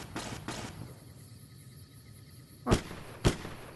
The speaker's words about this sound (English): Who, who, who are killing now? That's not us. Who is shooting?